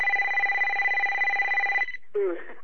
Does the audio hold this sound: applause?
no